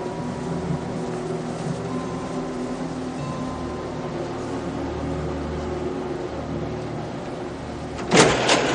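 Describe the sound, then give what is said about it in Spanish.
An automatic clothes rack in a shop's back room whirs into motion and rotates its hanging garments. A steady low mechanical hum runs throughout, ending in a short, sharp clatter near the close. “perchero automático se pone en marcha y las prendas giran junto a David que se pone en alerta.”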